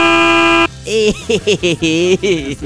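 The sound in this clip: A censor bleep covers a spoken name as a steady, buzzy electronic tone for just over half a second. Then it cuts off and speech follows.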